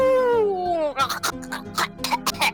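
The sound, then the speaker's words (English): A voice imitates a dying creature's death gurgle, starting as a drawn-out vocal tone that slides downward and then breaks into a series of rough, gargling bursts. “She lets out as she's dying this”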